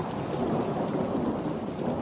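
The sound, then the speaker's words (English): Pouring rain in a thunderstorm, a dense, steady hiss of heavy rainfall with a low, rolling thunder rumble running throughout and no voices. “There's real dangers here. And when it's pouring and thundering rain,”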